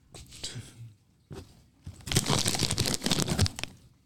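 Crinkling and crunching from a bag of crab-flavored potato chips: rustling crackles at first, then a denser, louder run of crisp crackles and crunches through the second half, with a short pause between.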